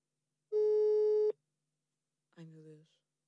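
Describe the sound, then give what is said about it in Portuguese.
Ringing tone of an outgoing telephone call: a single steady, mid-pitched tone held for under a second, then silence, followed by a short voice. “Ela disse para eu ligar quando quisesse. Vou ligar.”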